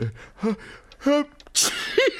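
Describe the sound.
An elderly man's sneeze: a few short voiced gasps build up, then a sharp breathy burst ends in a brief voiced finish.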